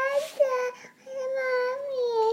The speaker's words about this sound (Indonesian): Kamu tidak usah menangis.